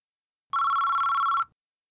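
A telephone rings once as a caller phones a large company: a single steady electronic ring of about one second, bright and buzzing, heard alone against silence.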